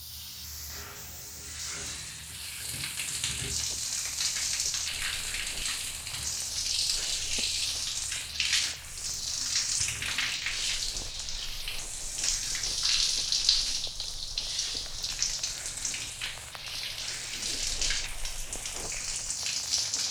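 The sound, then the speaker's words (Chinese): Water rushes from a flushing toilet as a steady hissing, splashing wash that carries on for about twenty seconds with small surges and no voices. “我要冲水喽。”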